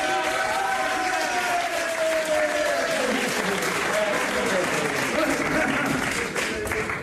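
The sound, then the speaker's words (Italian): Audience applause, a loud, continuous wash of many hands clapping, with a man's voice speaking over it. “Un bel applauso, grazie”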